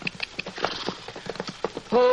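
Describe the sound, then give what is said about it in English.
Horse hooves clip-clopping in a steady walking rhythm: many even, moderately loud hoofbeats follow one another through the whole clip. “That horse doesn't belong at the center. Wonder whose it is.”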